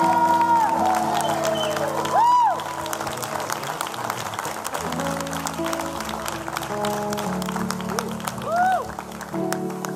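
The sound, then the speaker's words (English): A church audience applauds to welcome a preacher at a Sunday service. The dense, sustained clapping is mixed with a few rising whoops and cheers, and crowd voices run beneath it throughout. “So I need you to put your hands together and make him feel welcome as he comes.”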